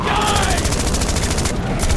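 Rapid gunfire from a rifle crackles in a dense, evenly spaced burst of loud sharp shots that runs almost without pause for about two seconds.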